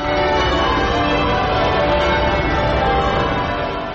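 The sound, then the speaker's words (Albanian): Church bells peal at an abbey for a royal wedding anniversary, a steady, continuous wash of overlapping ringing with no pauses. “posaçë në Westminster Abbey, kishën ku është martuar çifti, kanë rënë këmbanat”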